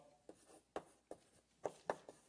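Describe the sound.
During a lecture, someone writes in faint, scratchy strokes: a few short, irregularly spaced marks with no talking.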